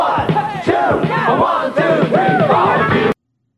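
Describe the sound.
Kit Kat candy bar TV commercial jingle: loud group vocals over a steady backing beat, with voices sliding up and down in pitch, cutting off abruptly at the end.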